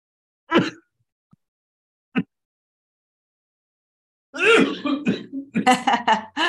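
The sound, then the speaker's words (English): A person coughs twice after something went down the wrong way. Two sharp, isolated bursts are separated by a few seconds of silence, and then a voice starts talking. “Not a good time for a cough.”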